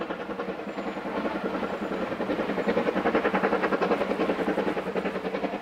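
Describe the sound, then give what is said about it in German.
A steam locomotive train runs with a steady, rhythmic chuffing and rumble. Regular pulses grow slightly stronger midway and continue at an even pace without any voices. “Die Dampflokomotive.”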